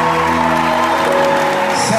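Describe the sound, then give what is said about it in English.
An audience gives a big round of applause for teachers as they stand, with a few whoops in the dense, continuous clapping. The clapping is mixed with sustained musical tones. “Please give your teachers a big hand clap while they stand.”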